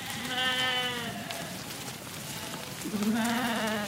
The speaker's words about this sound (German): Ein Schäfer in langem Umhang schreitet über die Waldlichtung, hinter ihm eine riesige Herde mit mehreren hundert Tieren.